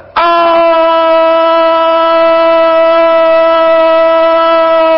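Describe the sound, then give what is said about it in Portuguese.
Police car siren effect sounding one loud, steady, sustained tone, held without wailing from a sharp onset to the end, with no voices. “a notícia é de polícia. Vamos começar então em nossa viatura cor-de-rosa, nossa primeira ronda desta sexta-feira, Dia Internacional da Mulher, aqui mesmo nas ruas da cidade de Ilhéus”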